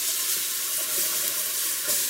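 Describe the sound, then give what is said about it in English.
Onions and flour sizzle steadily in a roux as they are stirred toward golden brown, a continuous bright frying hiss with no talk. “And continue to stir until onions and flour are a golden brown.”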